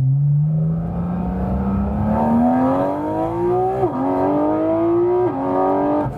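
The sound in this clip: A car with manual gear control accelerates hard, its engine whine climbing steadily in pitch, then dipping briefly at two gear shifts before rising again. It is loud throughout, with no talking.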